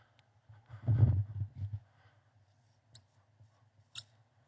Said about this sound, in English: let me write that up there